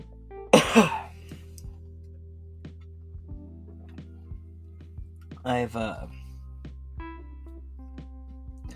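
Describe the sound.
Coughing and throat clearing from a dry throat in an old building with no humidifier and the heat turned up. Two harsh bursts come a few seconds apart, with faint clicks and a quiet steady hum between them.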